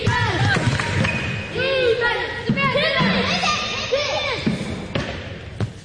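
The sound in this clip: Basketball dribbling in a gym during a girls' youth game, as an 11-year-old player in a long dress drives to the basket; several hollow bounces ring out under crowd chatter and voices.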